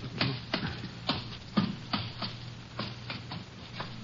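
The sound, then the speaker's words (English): A ladder in a barn is climbed with a steady series of dull knocks and scuffs on the rungs, roughly evenly spaced, fairly quiet and without talk. “There's a ladder to the left. Right, here it is. All right, I'm going to climb up.”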